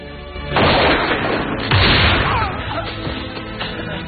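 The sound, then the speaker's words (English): Musket shots fired from fort ramparts, two heavy booming blasts about a second apart, each followed by a long rumbling decay. “Aiming from the ramparts, Hawkeye shoots down a Huron who attacks the courier.”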